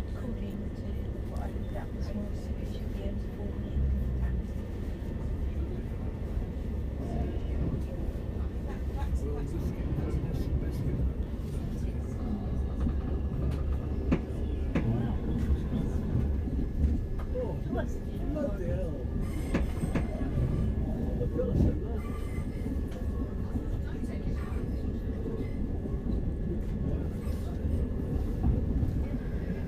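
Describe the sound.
A train rumbling toward Waterloo East on its way to terminate at Charing Cross: a steady, loud rolling rumble with clickety-clack of the wheels throughout, while a person talks over it.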